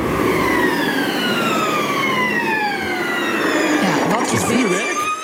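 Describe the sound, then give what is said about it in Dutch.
Formula 1 racing cars scream past with a loud, continuous high-pitched engine whine. The pitch slides steadily lower over several seconds, then wavers and rises briefly near the end. “Nee, dit is het geluid van Formule 1-auto's.”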